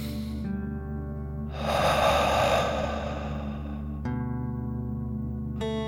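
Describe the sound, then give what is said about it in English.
A deep breath in and out through the mouth during a calm children's meditation: one long airy rush of breath that swells, then fades slowly over a soft steady tonal hum. “your lungs, and then out through your mouth, imagining you are breathing fire like a dragon. Okay, deep breath in and out.”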